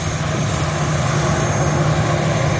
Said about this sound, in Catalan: Aquest era el so de l'avió arribant a Barcelona